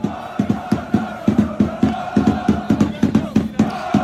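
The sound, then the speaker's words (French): PSG supporters welcome their players at Roissy airport at 3 a.m., a loud crowd chanting in a steady driving rhythm with repeated shouts and pulses that continue throughout. “Et oui, des supporters qui attendent des joueurs jusqu'au bout de la nuit à l'aéroport. Preuve qu'en football, les OM-PSG ne sont décidément pas des matchs comme les autres. Voici l'accueil réservé à Roissy à 3h du matin aux joueurs du PSG.”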